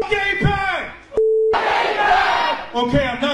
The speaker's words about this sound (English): Make some noise for Brad Lander! Make some noise for Claire Valdez!